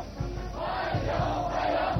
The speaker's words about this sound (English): The welcoming ceremony included a military honor guard, a military band, and hundreds of young people waving flags and chanting warm welcome.